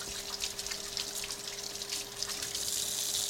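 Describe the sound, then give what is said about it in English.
Tap water runs steadily as cinnamon is washed off hands while cooking oatmeal. It makes a constant bright hiss and splash with no pauses and no voices. “this is a chance for me to wash the cinnamon off my hands”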